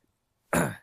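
A woman clears her throat once in a brief, rough burst that starts abruptly after a short silence.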